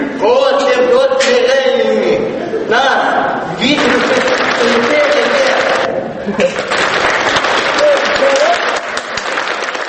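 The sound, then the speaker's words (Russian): An audience claps steadily throughout, and voices speak and call out over the dense applause. “Зрители вам хлопают. Браво, браво, браво, браво.”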